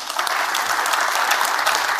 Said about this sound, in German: den Applaus sollen Sie kriegen.